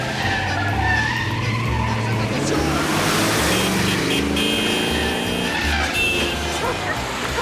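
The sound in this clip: A car speeds away from a station with tires skidding, a loud, steady rush of engine and tire noise that runs unbroken through the whole stretch.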